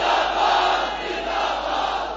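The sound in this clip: A large crowd chants religious slogans at a religious gathering, a loud, sustained roar of many voices that holds steady throughout without a break.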